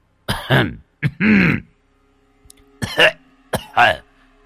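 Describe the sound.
An old man coughs and clears his throat in a long fit. Rough, voiced hacking bursts come in a few separate groups with short pauses between them.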